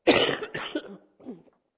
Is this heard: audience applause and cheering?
no